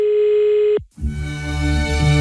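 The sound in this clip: A telephone dial tone sounds as a call is placed: a steady, even single tone that holds for under a second, then cuts off and gives way to a louder, denser buzzing sound.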